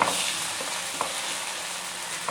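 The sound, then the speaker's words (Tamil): Dosa batter sizzles in oil on a dosa pan, giving a steady, faint frying hiss broken by a few soft crackles, with no voices. “ஒரு கரண்டி மாவை எடுத்து தோசை சட்டியில் ஊற்ற வேண்டும் ஊற்றிய பிறகு அது அங்கும் மீங்கும் ஒட்டாத அளவிற்கு நன்றாக எண்ணெய் தேய்க்க வேண்டும்”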